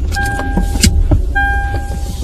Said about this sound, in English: All right, let me start the car.